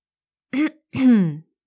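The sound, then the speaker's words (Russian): Throat clearing by a single person: a short rasping burst, then a longer voiced grunt whose pitch sinks toward its end, heard alone. “Прочищает горло.”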